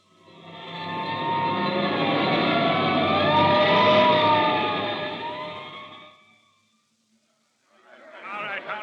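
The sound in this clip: Siren of a hook-and-ladder fire engine on its way to a fire, a loud sustained wail that swells and then fades out over about six seconds. After a brief silence, a voice begins.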